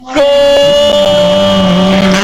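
A rally car arrives at the finish line of a rally stage with a loud, sustained engine roar that surges in abruptly and holds a steady, buzzy tone throughout.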